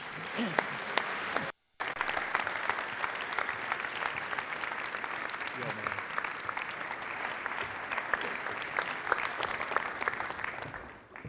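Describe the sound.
Audience applause welcoming a speaker at a morning chapel service: dense, even clapping that runs for about eleven seconds, cuts out briefly near the start, then eases off at the close.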